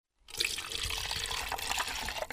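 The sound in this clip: Non-toxic antifreeze pours into an insect collection jar, a steady rushing splash of liquid that starts abruptly and keeps flowing evenly to the end.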